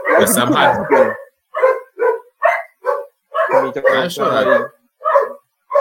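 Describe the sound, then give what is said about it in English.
Pet dog barking while a man talks about football: several short, sharp barks between stretches of speech. “no, that's my dog.”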